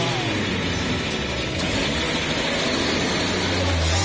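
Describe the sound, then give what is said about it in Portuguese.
A Chevette car engine runs loudly. Its rumble and mechanical rattle hold at a steady level, with no clear climb in pitch. “Tá tudo prontinho aí no nosso Chevette, Ricardo? Então vamos iniciar a viagem. Acelera,”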